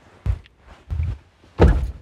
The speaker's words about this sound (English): trying to close the door, but she's having some trouble